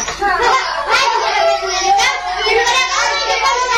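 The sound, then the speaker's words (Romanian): Children playing noisily in the street, with overlapping shouts, squeals and chatter that form a busy, continuous wash of young voices. “Hai, ce gălăgie! Ia să o stâns copilul aici pe stradă să se joace.”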